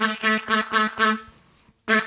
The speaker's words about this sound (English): I'm not going to get a rattle on this harmonica. It's a G crossover, but you can hear that it's kind of quacky.